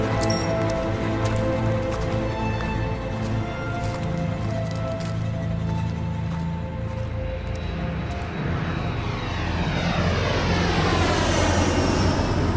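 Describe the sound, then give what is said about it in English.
Roaring engine of the fictional Batwing aircraft arriving, a loud, continuous jet-like rumble and hiss that holds steady, then a whining tone climbs in pitch toward the end. “I had the Batwing standing by, just in case. It locked into my location.”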